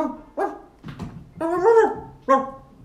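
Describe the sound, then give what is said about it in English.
A dog barks several times in short, sharp bursts, one bark stretched into a longer whining yelp, loud and alone without talk. “Oh, he's barking.”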